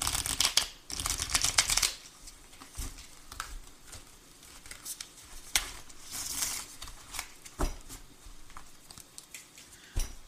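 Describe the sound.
Tarot cards shuffled and drawn for a reading: papery riffling and rustling bursts, loudest at the start, then softer shuffling and light card slaps continuing throughout.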